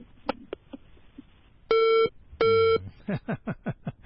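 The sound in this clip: A telephone call from Langadi cuts off with a disconnect tone: two long, steady, bright beeps, then a quick run of shorter tone pulses, with a few faint clicks before them.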